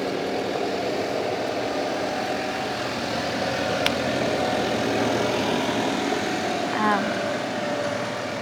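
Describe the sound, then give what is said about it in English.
A farm tractor's engine rumbles steadily as it pulls into the yard of an organic farm, a continuous broad drone that holds an even level from start to finish. “We're just having one of the tractors coming in to the yard there now.”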